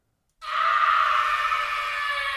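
A person lets out one loud, sustained scream used in place of a jingle. It starts abruptly and holds a steady, strained pitch for about two seconds, with no other sound around it.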